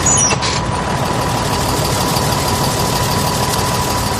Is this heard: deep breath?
no

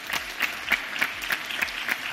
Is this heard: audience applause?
yes

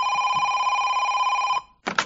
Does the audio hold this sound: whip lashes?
no

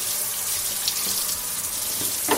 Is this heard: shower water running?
yes

